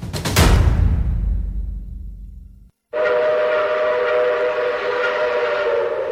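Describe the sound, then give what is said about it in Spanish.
A metro train at a station: a loud burst that fades away over about two seconds, then a brief silence, then a steady droning rumble with sustained whistle-like tones to the end. “Próxima estación Floresta.”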